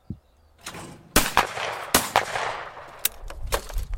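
Gunfire at a sport shooting range in Bréville-sur-Mer, Normandy: several sharp, loud cracks at irregular intervals, each with a short decaying tail, with no voices.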